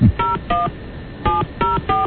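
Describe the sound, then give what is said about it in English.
Telephone keypad dialing tones: five short, clear beeps in an uneven rhythm, two close together, a pause, then three more, with no talk. “let's call her up. Put her on the phone with her accuser.”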